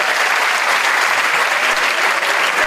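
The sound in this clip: Audience applause: dense, steady clapping from many hands that holds an even, loud level throughout without a break.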